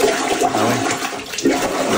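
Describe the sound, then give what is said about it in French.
Water backing up and surging in a toilet bowl during heavy rain, a continuous loud gurgling rush with a few burbling swells, with no voices. “Grosse pluie, là, ça déborde. Les gens filment leur bol. Écoutez bien le son, c'est impressionnant. C'est le retour d'eau.”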